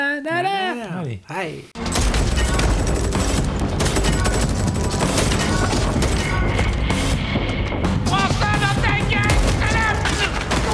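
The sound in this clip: Rapid gunfire erupts in a dense, loud, continuous barrage lasting roughly nine seconds, following a brief stretch of voices at the start.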